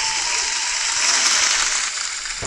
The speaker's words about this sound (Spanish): Aplauda, por favor, aplauda.